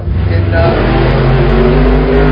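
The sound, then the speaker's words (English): Drag racing engines roar at a drag strip event where funny cars and pro mods are running, a loud, dense, unbroken rumble that holds steady for the whole stretch. “Now you can hear that, I hope. Yeah, we got cars in the background.”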